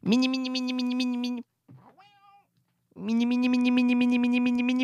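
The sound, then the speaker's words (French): An electronic toy cat gives two long, loud, buzzy meows with a steady pitch. Between them, a short gap holds a brief, fainter wavering call. “Monsieur, c'est pas un chat, ça, là? C'était un chat électrique.”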